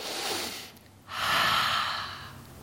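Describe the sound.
A deep breath drawn in through the mouth: a loud, steady rush of air lasting about a second, following a softer breathy stretch, with no talk.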